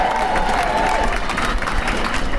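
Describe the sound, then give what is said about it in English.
A crowd at a demonstration against Trump cheers and claps for first-time protesters, a loud, dense wash of applause and voices that holds steady for the whole short burst. “So if you're here in your first demonstration, put your hand up. Give them a cheer, everybody.”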